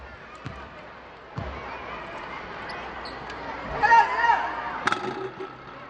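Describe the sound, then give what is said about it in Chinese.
Basketball striking the rim before dropping into the hoop during a university basketball game, heard as a few sharp thuds over steady crowd noise that swells briefly near the end. “哦，这颗有蛮幸运的哦， 有点运气。 对， 球响了一下才掉进篮筐里面。”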